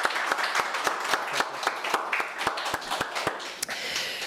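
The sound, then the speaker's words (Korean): Audience applause of encouragement at the opening of a lecture session, a dense steady patter of many hands clapping for about four seconds at a fairly even level, with no voices over it. “우리가 서로 한번 박수, 서로에게 격려 박수.”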